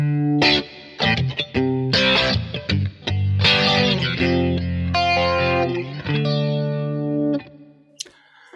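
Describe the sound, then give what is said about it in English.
Electric guitar played through a Kemper Profiler with a slow rotary speaker effect and overdrive: warm, swirling distorted chords and notes in phrases split by short pauses, then fading out near the end. “And then going back to the original part to fade out, just rotary slow and the overdriven sound.”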